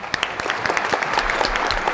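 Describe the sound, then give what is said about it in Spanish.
An audience breaks into applause, with many hands clapping in a busy, crackling texture that stays steady and fairly loud from start to finish. “Pues avui anem a aplaudir a Chispita”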